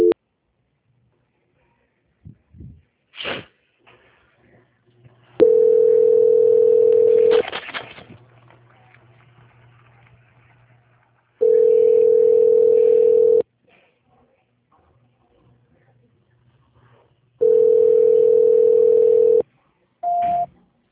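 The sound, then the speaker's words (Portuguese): Telephone line tones during a call transfer: a few faint clicks, then three long, steady mid-pitched beeps in a regular on-off rhythm with silent gaps, ending on a brief higher tone. “Isso, vai ficar mudo, mas outra pessoa vai estar atendendo a senhora, tá? Tá bom. Transferência.”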